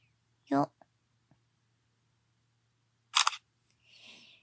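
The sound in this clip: A camera shutter fires to take a photo, a short crisp clicking burst that follows a brief spoken word and some quiet.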